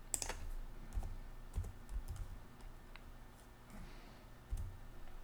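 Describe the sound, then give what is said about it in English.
Typing on a computer keyboard: faint, irregular clicks and taps of keys, with a few heavier strokes scattered among lighter ones and no voices. “So all I have to do is type 5 month old son.”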